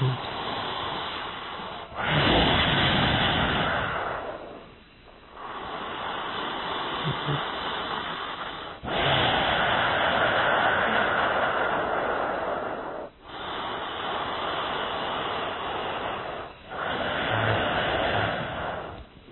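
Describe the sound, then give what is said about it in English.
Slow nasal breathing with the back of the throat squeezed, giving each breath a steady, rasping hiss. About six long inhale and exhale phases alternate evenly, each separated by a brief pause, with no talk. “breathe in through the nose and breathe out through the nose with the intention of producing that sound. You just have to squeeze the back of your throat a little bit.”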